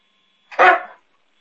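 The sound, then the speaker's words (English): A dog barks once during a remote roll-call vote, a single sharp, short bark that fades within half a second against silence. “Okay, you need to whistle at your dog.”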